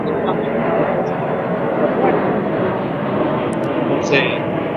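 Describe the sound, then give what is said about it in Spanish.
An airplane passing overhead gives a steady, broad engine roar that holds at an even level from start to finish, with no clear rise or fall. “ya va que está pasando un avión en el que puede ir Dudamel de vuelta.”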